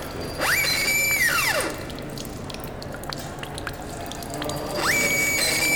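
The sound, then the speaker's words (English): Water drips in a scatter of faint ticks over a steady wash, while a whining mechanical tone rises, holds, then falls away, and climbs again near the end. “and now it's going up. So the dripping sound also a little bit louder.”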